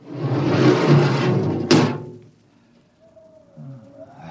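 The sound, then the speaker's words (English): A spaceship airlock door opens with a long airy whoosh that ends in one sharp clank. Near silence follows, with a faint thin tone. “All right, Parkhill. Open the airlock. Aye, sir.”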